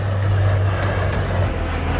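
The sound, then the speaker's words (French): Water-bomber planes, Dash aircraft and helicopters working over a wildfire make a loud, continuous engine roar with a steady low hum, unbroken for the whole clip. “un balai incessant de canadaires, de dashs et d'hélicoptères s'organise”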